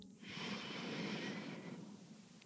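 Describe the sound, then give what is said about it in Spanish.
One deep inhalation during a guided breathing exercise: a single soft, airy intake of breath lasting about a second and a half, then fading into quiet. “Entonces vamos a respirar nuestras tres em, inhalaciones y exhalaciones juntos. Vamos a inhalar profundo.”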